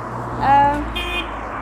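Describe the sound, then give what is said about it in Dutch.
Road traffic rumbles steadily while someone crosses a street, and two short car horn toots ring out briefly over the passing cars. “ik moet even oversteken. Dus je hoort wat auto's die langskomen.”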